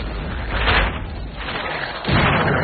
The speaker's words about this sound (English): The fuse is lit and the shot is fired. It explodes in a fireball against the fort's timber walls.